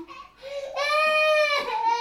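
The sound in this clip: A 19-month-old toddler cries in an apartment, starting with a short whimper and swelling into a loud, sustained wail that wavers and breaks near the end.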